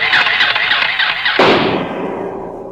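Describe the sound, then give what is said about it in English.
A junior space cadet-size toy atomic blaster fires as a radio drama sound effect: a loud, high warbling squeal runs for over a second, then a sharp burst breaks out and decays into a fading ringing tail. “It's an atomic blaster, junior space cadet size. Why not? Let's try it.”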